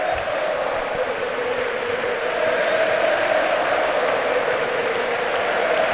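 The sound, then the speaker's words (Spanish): A football stadium crowd at San Mamés sings for coach Ernesto Valverde, a loud, continuous mass of voices with a sustained chanted tone. “Ha saludado Ernesto. Ernesto Valverde. Es la primera vez que le cantan en Samamés”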